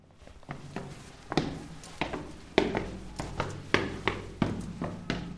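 Footsteps climbing a dark, narrow staircase behind a black steel door: a steady series of many dull, fairly loud thuds at a walking pace over a low background rumble.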